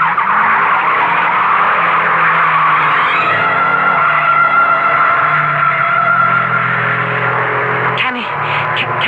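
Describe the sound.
Tire squeal from a race car skidding through a curve on a track, a loud sustained screech with engine drone running nearly the whole clip before an abrupt change near the end.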